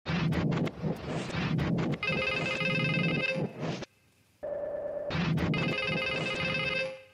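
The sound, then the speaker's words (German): A telephone rings in two long bursts of bright, warbling electronic tone with a brief silent gap between them, set within a dramatized phone-call scene. “Herr Nowak ruft nämlich wieder an.”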